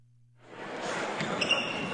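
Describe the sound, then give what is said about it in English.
Basketball bouncing during a high school basketball game on a Friday night in Maryland, set within a steady wash of gym noise and crowd voices that swells early on, with a brief high squeak near the end. “This may sound like a typical high school basketball game being played on a Friday night in Maryland.”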